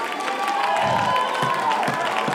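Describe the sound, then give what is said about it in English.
A church audience claps hands with all its might, a dense, loud, continuous wash of applause with cheering voices rising over it. “Would you clap your hands again with all of your might?”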